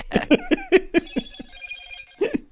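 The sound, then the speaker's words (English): A phone rings with the Pac-Man game tune as its ringtone: bright electronic notes in quick rhythmic bursts, a sustained tone, then a final short burst. “Uh-oh. There's the Pac-Man ringtone.”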